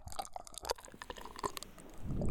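Soft, wet licking and mouth sounds in an intimate close-mic setting: faint, irregular smacks and clicks, with a thicker wet swell near the end.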